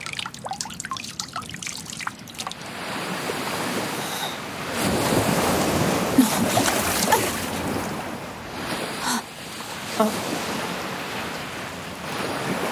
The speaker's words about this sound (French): Une immense étendue d'eau, comme le décrivait mon livre.